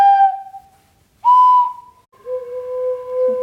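Three wooden pipes blown by children one after another, each a clear sustained whistle at its own pitch; the first fades out, the second is brief and brighter, and the third is the lowest and longest.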